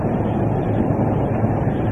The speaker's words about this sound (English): That's the train in the distance, ways away.